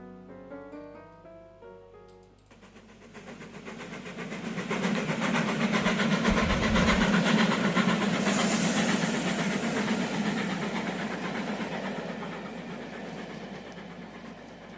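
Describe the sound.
Train running, heard from inside while walking through the carriages: a broad, steady rumble with hiss and rattle that swells in loudness and then holds, with no voices.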